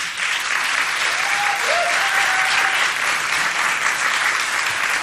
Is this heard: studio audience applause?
yes

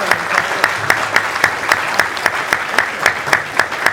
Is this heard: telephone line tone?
no

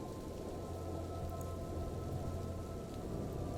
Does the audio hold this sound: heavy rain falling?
yes

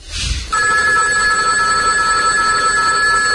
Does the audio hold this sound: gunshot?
no

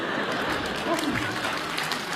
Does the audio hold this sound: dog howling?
no

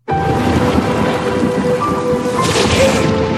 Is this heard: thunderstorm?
yes

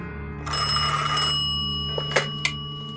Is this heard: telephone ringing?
yes

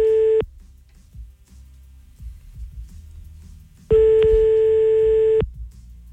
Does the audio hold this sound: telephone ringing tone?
yes

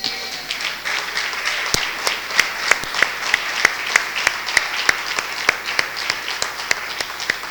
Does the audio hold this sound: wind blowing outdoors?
no

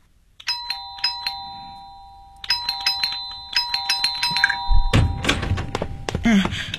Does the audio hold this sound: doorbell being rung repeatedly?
yes

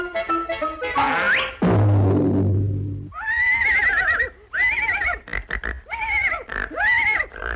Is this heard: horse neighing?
yes

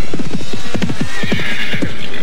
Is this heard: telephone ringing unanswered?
no

